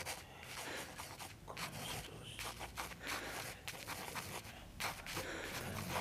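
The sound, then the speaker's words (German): A pencil writes on paper in faint, irregular scratching strokes, with short scraping bursts and brief pauses in between, very quiet throughout. “Hier hast du Papier und Bleistift. Schreib auf, was du hier willst.”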